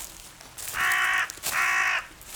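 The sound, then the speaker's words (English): Harsh cawing of a crow in a forest: two loud, evenly spaced caws, each about half a second long, heard alone against a quiet background. “Here, Mr. Crow, I see you. You don't scare me.”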